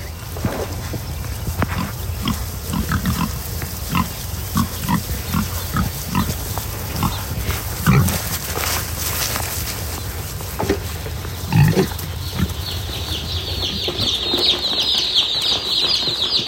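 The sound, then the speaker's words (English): Pigs on a farm grunt and squeal during their morning feeding, with many short, irregular calls and snorts over steady background noise. Two louder, sharper bursts stand out partway through. “That's the sound of us feeding the pigs this morning.”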